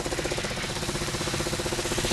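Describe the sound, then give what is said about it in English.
A buffing machine runs steadily. It is a large rotary sanding drum with a foot pedal, used to buff unwanted material off animal skins for a suede surface, and gives a loud, continuous droning whir with a rapid, even rattling pulse and no talk. “it's called a buffing machine, and it's basically a large rotary sanding drum.”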